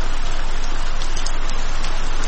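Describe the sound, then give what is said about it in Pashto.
Heavy rain pours down in a loud, dense, unbroken hiss of countless drops that stays even from start to finish. “باران تیز شو، داسې شرشوری شو لکه ناوې چې له اسمان راخوشي شي.”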